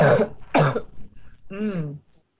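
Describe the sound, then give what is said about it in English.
Throat clearing: two harsh, breathy bursts in quick succession, then a short voiced, hum-like grunt before falling quiet. “Sorry, I just have to get my throat.”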